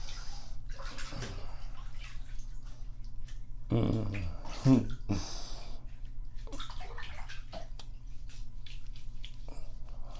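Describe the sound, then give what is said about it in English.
Water sloshes and splashes in a bathtub while a father washes a child's hair. A louder burst of splashing comes midway over a steady low background. “And you just lean back, and Daddy's gonna wash your hair,”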